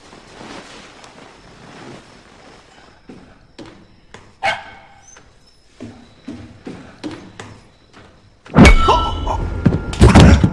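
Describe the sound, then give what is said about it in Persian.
A dog barks a few times, sharp and spaced apart, before a loud burst of broad, rushing noise fills the last couple of seconds. “اون سگ آشغال خفه کن”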